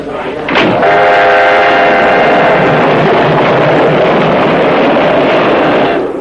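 A train runs on rails in a steady, loud rumble that holds for several seconds, with a tonal ringing near the start.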